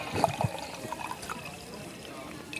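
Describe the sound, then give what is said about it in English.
Wine pours into a cup, opening with a few splashy gurgles and then settling into a thin, steady trickle of liquid that continues quietly to the end. “Here's the sound of some wine being poured into a cup.”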